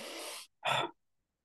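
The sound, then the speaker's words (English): A deep breath drawn in and then let out: two broad breathy rushes, the first longer and steady, the second shorter and louder, alone with no talk. “Take a deep breath with me. Take a deep breath.”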